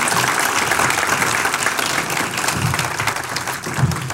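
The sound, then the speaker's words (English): An audience applauds to welcome a mission team, a dense, even wash of clapping hands that holds steady throughout. “Can you put your hands together and welcome the mission team to the platform this morning?”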